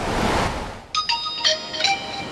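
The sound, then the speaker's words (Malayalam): WhatsApp message notification tone on a phone at a beach: a few bright, chiming pings in quick succession that follow a rushing, surf-like wash that fades out. “എന്താ വാട്സാപ്പിൽ message? നോക്കട്ടെ.”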